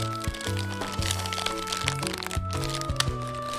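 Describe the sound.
A thin, individually wrapped snack packet is opened with continuous crinkling and crackling of the wrapper. Sharp cracks punctuate the rustle, and a faint steady tone runs underneath.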